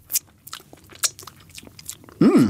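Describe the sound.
Soft biting and mouth sounds as someone eats edible gold leaf, a few brief crisp clicks spread through the quiet, then a sudden loud voiced vocal sound at the very end.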